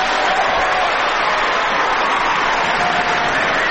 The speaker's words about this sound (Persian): به به آقا بزن اون دست قشنگرو بزن.